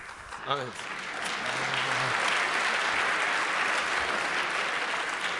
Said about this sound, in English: I'll leave the stage next time someone starts to clap.